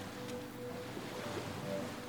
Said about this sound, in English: watching as the bow of the ship slices through the inky blue waves.